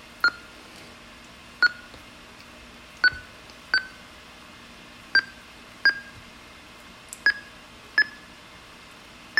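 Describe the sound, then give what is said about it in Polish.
Faint, short high computer beeps signal the end of a text-to-speech conversion into an audio file, nine of them in loose pairs at an uneven pace, alone over quiet background hiss. “usłyszeliśmy dźwięk sygnalizujący zakończenie procesu i mamy plik audio.”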